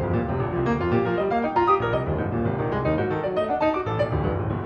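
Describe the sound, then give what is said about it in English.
Piano playing from a pianist and his specially modified, algorithm-driven piano responding alongside him: dense overlapping notes and chords in a continuous, busy stream at a steady, fairly loud level. “it's also his piano playing along with him.”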